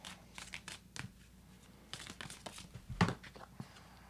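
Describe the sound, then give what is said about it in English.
A deck of shadow cards is handled quietly, making soft crinkly rustles and light taps with a few sharper snaps scattered through. “Let me get out my oh. shadow cards.”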